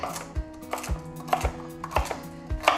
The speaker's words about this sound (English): So you want to chop the stalks in about 2 centimetre bits.